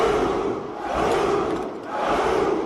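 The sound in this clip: An army of about a thousand soldiers shouts a battle cry in unison, a dense, loud roar of massed male voices that surges, dips briefly and rises again.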